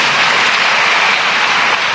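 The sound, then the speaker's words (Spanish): Congregation applauding in a church service, a loud, dense and unbroken wash of clapping that holds steady throughout. “Dile un aplauso al don de Dios.”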